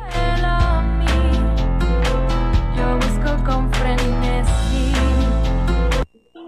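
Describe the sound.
Son cubano band music playing loud and full, with bright stacked instruments over a heavy bass line and percussive hits. It cuts off abruptly near the end.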